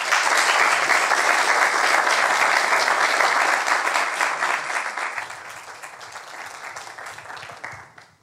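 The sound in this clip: Audience applause welcoming a named lecturer: full, dense clapping from a large crowd stays steady for several seconds, then gradually thins and tapers away to near silence at the end.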